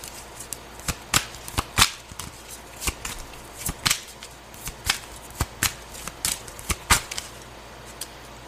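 Tarot cards are shuffled and handled during a reading: many crisp riffling snaps and slaps in an uneven rhythm, fairly quiet, with no voices.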